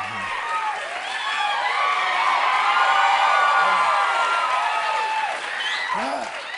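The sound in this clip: A TV studio audience cheers and applauds as Kenan walks on, a dense, loud, sustained wash of clapping laced with shrill whoops and screams that carries through the whole stretch with only a slight dip near the end.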